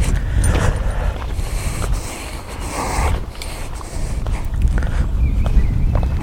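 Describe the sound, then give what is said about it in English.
Footsteps of a person walking outdoors to join up with a path, a steady run of many footfalls over continuous rustling noise, with no talk. “Yeah, I'm going to walk around and join up with the path,”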